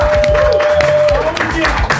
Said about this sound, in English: Oh, there goes that live studio audience again.